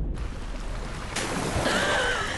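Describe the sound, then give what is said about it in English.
Churning ocean waves swirl around a floating jet ski, a soft, steady wash of surf and rushing water that continues throughout. “the wave carries the jet ski in its churning water.”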